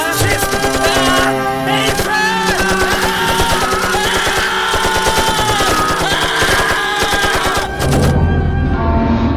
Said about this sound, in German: Die Blinden fallen. Sie fallen einer über den anderen. Und noch im Fallen treffen die Kugeln weiter die Körper.